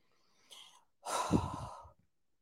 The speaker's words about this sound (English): I want everybody to breathe deep breaths.